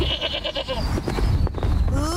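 A fat-tailed sheep (dumba) bleats loudly in a long, quavering, pulsing call, followed after some noisy shuffling by a shorter rising bleat at the end.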